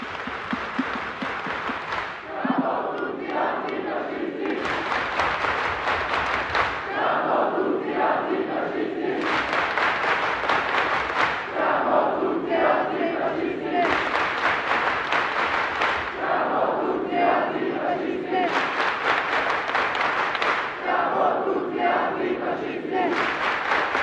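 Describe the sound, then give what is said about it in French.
A large crowd chants the Italian antifascist slogan "Siamo tutti antifascisti" in loud unison, repeating the phrase in several rhythmic bursts with short gaps, mixed with clapping and cheering. “Et j'aimerais, si vous me le permettez, terminer par un chant italien que j'apprécie particulièrement. Je vous invite à lever les mains. Siamo tutti antifascisti!”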